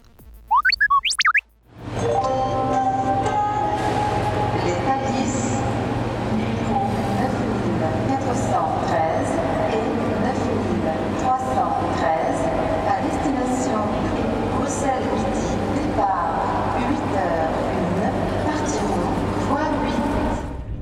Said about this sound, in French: Je suis dans le TGV de 8h25 à destination de Bruxelles.